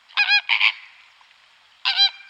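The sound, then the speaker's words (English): Greater flamingo calls: three loud nasal, goose-like honks, two in quick succession followed by a pause before the third. “It is the greater flamingo, a bird found throughout the Caribbean and the Galapagos, and from southern Europe across Africa to India.”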